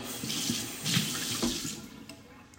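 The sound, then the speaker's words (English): A kitchen tap runs steadily as a spoon is rinsed during pancake preparation. The water flows for a few seconds before easing off slightly toward the end. “Let me rinse that spoon.”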